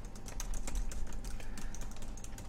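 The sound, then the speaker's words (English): Typing on a computer keyboard as a band name is entered into a chat. Many quick, light keystrokes tap in an irregular, rapid run, faint and unaccompanied by talk. “So I'll type my band name in the chat here so you can check it out.”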